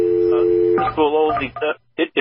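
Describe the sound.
A telephone line while a call is dialed: a steady dial tone for under a second, then a stretch of shifting tones and two short bursts at the end.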